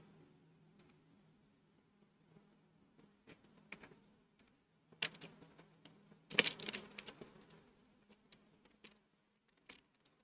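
Typing on a computer keyboard produces faint, irregular key clicks at a scattered, uneven pace, with a few slightly louder taps in the middle.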